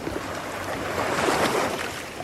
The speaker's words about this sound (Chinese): 你看，这黄河水就这么个，一直流到那大海里。